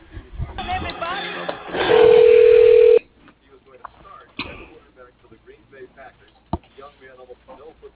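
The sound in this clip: A single steady telephone ring tone, lasting about a second, as an office call is transferred to voicemail, set among muffled background noise and a few faint clicks.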